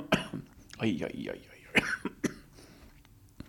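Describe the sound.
A person coughs sharply a few times, with throat-clearing and brief voiced sounds between the coughs and quiet gaps.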